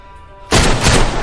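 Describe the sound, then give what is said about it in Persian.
Gunshots fired into the air break a quiet background with a loud, sudden, harsh blast that stays dense and roaring for most of a second, without clearly separate individual shots. “هوای شلیک میکنه.”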